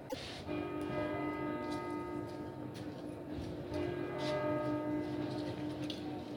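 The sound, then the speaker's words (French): Church bells of a clock tower in Bologna striking two in the afternoon: repeated bell strikes with sustained, humming tones that ring on between hits at a moderate level, with no talk. “Donc nous sommes sur la tour de l'horloge à Bologne. Et nous attendons la sonnerie des cloches pour nous annoncer 14h, 2h de l'après-midi.”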